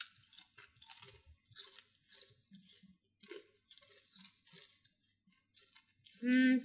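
Crunchy chewing of a peanut snack, many irregular crisp crunches and mouth clicks, ending with a short, loud voiced hum.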